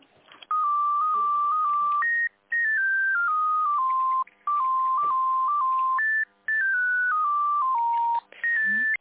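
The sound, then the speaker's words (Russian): Electronic telephone tones play while a call is transferred: a repeating pure-tone melody in stepped notes, each phrase starting high and stepping downward, loud and steady, with about four phrases split by brief silent gaps. “Нет, сейчас я вас переключу на «Бережливость».”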